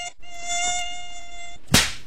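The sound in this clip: Thin, high-pitched whining buzz of an Aedes mosquito, a steady tone with bright overtones that hums for over a second and ends in a sudden sharp burst.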